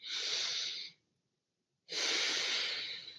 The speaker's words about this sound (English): Start with one deep breath.